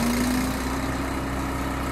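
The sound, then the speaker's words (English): Trailer-mounted grinder milling roasted mesquite pods fed into a metal cone, a loud, constant motor drone with a steady held hum and no break. “Then they hook up a grinder. It's mounted on a trailer, and the pods get fed into a metal cone and ground up.”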